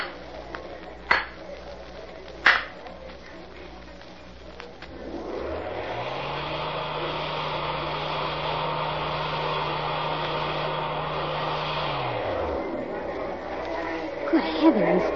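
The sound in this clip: A motorized hidden wall in a mine, triggered by a photoelectric beam, swings open with a steady mechanical whir and low hum lasting about seven seconds before cutting off. Two sharp clicks come before it.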